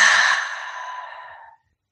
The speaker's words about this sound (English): So take a big breath in, big breath out